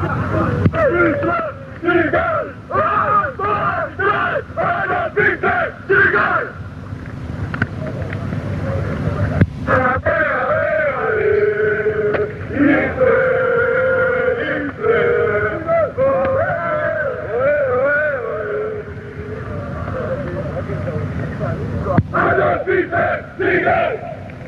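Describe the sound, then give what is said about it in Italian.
Atalanta ultras of the Brasato group, a subgroup of the Brigate, chant a loud, rhythmic football terrace chant in massed voices. Shouted bursts open and close the chant, and the sustained melody in the middle runs without a break. “Ok, questo è uno dei cori più beceri, li sento, li riconosco anche le voci di chi li fa, sono fatti proprio dal gruppo Brasato, che era un sottogruppo delle Brigate.”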